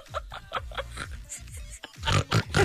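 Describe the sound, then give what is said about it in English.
A person snorts repeatedly, giving a string of short, nasal, pig-like grunts and snuffles in an irregular rhythm that grow louder toward the end. “Oh, my God, you just snort?”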